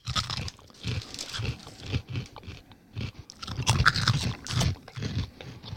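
Chewing surimi: a steady run of moist chomps mixed with brief crunchy bites that keeps up a fairly even rhythm throughout, with no talking.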